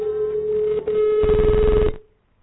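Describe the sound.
A telephone tone sounds while a call is dialed to reach a listener, a steady buzzing pitch with a brief break partway through. A coarser burst joins it before the tone cuts off, leaving silence.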